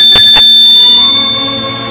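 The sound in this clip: A doorbell rings at a grandmother's front door: two quick bright strikes followed by a sustained ringing tone that slowly fades, with no voices.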